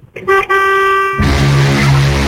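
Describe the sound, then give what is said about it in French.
A truck horn honks in a loud, sustained blast with a short break near the start. Halfway through, a rougher, noisier layer joins the tone. “fais péter le klaxon là pour voir là”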